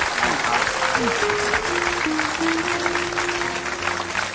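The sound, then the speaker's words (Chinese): Audience applause during a show as judges are being introduced, sustained clapping from many people that stays steady and moderately loud for several seconds. “掌声”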